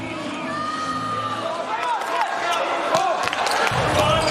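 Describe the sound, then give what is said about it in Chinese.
Christensen serves for the US team during a volleyball match, giving sharp slaps of the ball against a murmuring, cheering crowd while a commentator talks throughout. “克里斯滕森的发球，”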